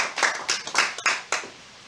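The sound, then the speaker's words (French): A church audience claps loudly for the Lord in a series of sharp, rhythmic bursts of hand claps, each fading before the next, then tailing off. “Applaudissons très fort le Seigneur Jésus-Christ.”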